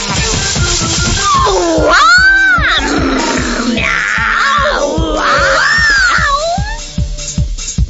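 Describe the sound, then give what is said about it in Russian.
Cats meowing in several drawn-out, rising and falling calls that sound over a steady, pulsing rhythmic backing. “Кис-кис-кис-кис-кис-кис-кис. Девочки начали мяу.”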